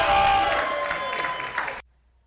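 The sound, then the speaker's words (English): Audience clapping at the Jambalaya Soul Slam poetry slam in Durham, North Carolina, dense applause with a little cheering that cuts off abruptly near the end. “And keep clapping as we call LJ to the stage.”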